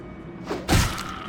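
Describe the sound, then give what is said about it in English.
Video game creature's body exploding dramatically across the screen after a killing blow, a single brief, dull thudding burst rising out of low background noise. “If a creature goes past negative 10 hit points in the attack that kills them, their body kind of explodes across the screen in a very dramatic fashion.”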